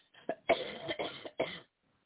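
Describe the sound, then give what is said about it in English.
Coughing from one person, a few harsh bursts in quick succession over about a second and a half, then silence. “Excuse my coughing. I apologize. Just once. I just got to keep coughing.”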